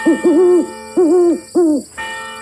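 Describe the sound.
An owl hoots at night: a few loud, hollow, wavering hoots come in quick succession, the first two nearly joined, over a faint, steady high tone.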